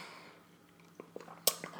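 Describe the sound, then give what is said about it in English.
Faint wet mouth sounds of someone sipping water: a few small clicks, then a short slurping burst at the end. “Sips water.”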